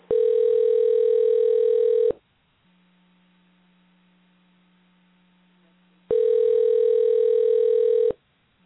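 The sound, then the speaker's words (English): Ringback tone of a telephone call placed from a computer: two long, steady, mid-pitched tones of about two seconds each, separated by a pause filled with a faint low hum. “We're calling right on our computer.”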